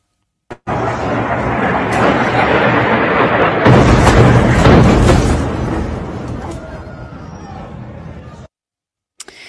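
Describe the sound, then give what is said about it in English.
Israeli fire belt airstrikes hitting Gaza City, heard as a sustained heavy roar and rumble of blasts that swells sharply about midway, with voices mixed in, before cutting off abruptly. “Al Jazeera reporter Anas Al-Sharif shared this video of Israeli fire belt strikes hitting Gaza City on April 3rd.”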